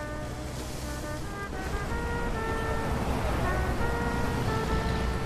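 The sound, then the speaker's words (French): Sea surf rolls in along the Malecón, the long seafront boulevard in Havana, as a steady, broad roar that builds slightly after the first second, with sustained humming tones running over it. “Nous sommes à seulement 150 km des côtes de la Floride, au bord du Malecón, cet immense boulevard qui longe la mer, bordé par les façades délabrées des années 50.”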